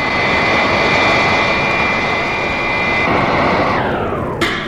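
Jet-engine roar of a robot plane slowing to hover beside an alien command ship; a loud, steady whooshing drone whose whine drops in pitch near the end.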